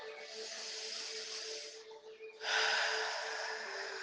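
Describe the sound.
Deep breathing during a guided breathing exercise: a soft, steady airy hiss, a brief dip, then a stronger rush of breath that carries to the end, faint overall.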